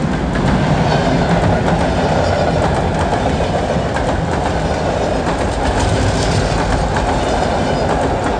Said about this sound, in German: Der D-Zug! Der D-Zug!